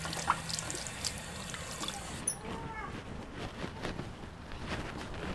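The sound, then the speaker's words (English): Running water rinsing off an object, a steady splashing stream of tap water that continues without a break. “I'm gonna rinse it off for you.”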